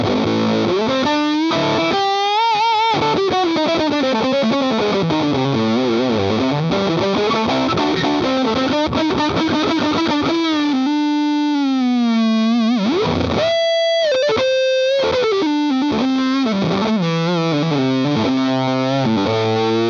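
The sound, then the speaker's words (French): Heavily fuzzed electric guitar through a Blackie 2 fuzz pedal boosted by a Dark Blue pedal, playing a riff of sustained, bending notes with a thick, saturated, buzzing tone, loud and alone without talk. “On va essayer pour le fun hein, de booster la dernière de la chaîne, c'est-à-dire la Blackie 2, avec l'une des deux précédentes. Donc allez, je la booste avec la Dark Blue.”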